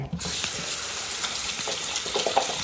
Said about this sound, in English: I'm gonna wash my hands.